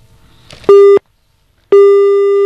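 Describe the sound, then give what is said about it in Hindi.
Telephone busy tone after a disconnected call: a loud, steady electronic beep that cuts off after a moment, then about a second of silence before a second identical tone starts and runs to the end. “लगता है हमारी call जो है वो disconnect हो गई है.”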